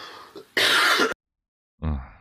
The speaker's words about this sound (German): Ich habe immer noch mein Husten momentan, das ist echt nervig.